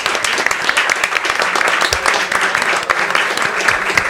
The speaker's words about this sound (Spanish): les pido por favor un enorme aplauso